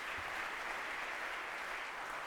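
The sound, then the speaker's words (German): Faint, steady applause from a group praising a few people who just acted out a scene, a continuous even patter of many hands that holds at one level for the whole stretch. “Ein Applaus schon mal. Die sind super.”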